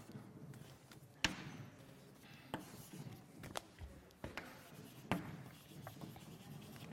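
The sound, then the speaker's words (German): Faint scratchy pen strokes on a writing surface during a maths lecture, steady rubbing broken by a few sharp taps as the pen touches down, with no voices. “Ich schreibe mal das nochmal blau.”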